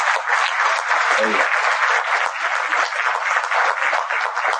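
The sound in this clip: Audience applause at the Iran Web and Mobile Festival in Shiraz: thick, continuous clapping that stays loud and even from start to finish, with no break.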